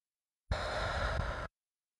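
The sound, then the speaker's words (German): A single deep breath taken through the nose during a guided meditation, a soft, steady breathy rush lasting about a second, standing alone amid silence. “und dann atmen wir dreimal tief durch die Nase ein bis in den unteren Bauch, also leg gerne auch die Hand auf deinen unteren Bauch und atme dann wieder alles, was wir können nach draußen.”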